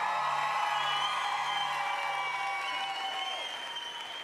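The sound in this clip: Audience applause welcomes a speaker at a church gathering, sustained dense clapping from a crowd that stays strong throughout and eases slightly toward the end.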